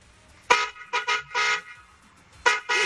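Car horn honking on a neighbourhood street, an irregular series of several bright, loud blasts, some short toots and some held longer, with quiet gaps between them.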